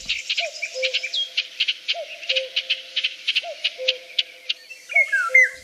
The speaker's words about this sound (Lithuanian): Girdite? Šių metų volungė švilpoja. Na tai toks vienas vasariškiausių paukščių.